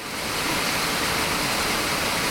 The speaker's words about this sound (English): You're hearing one of the main waterfalls